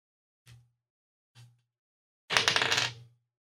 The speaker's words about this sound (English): I'll place this card face up and roll a d6 for the candles.